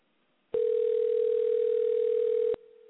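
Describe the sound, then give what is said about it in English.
A telephone dial tone sounds on the line while a guest is being called: one loud, steady, unbroken mid-pitched tone lasting about two seconds, with no voices. It then drops abruptly to a much fainter continuing tone. “we're going to dial up our guest right here. So just hold on, hold on, hold on.”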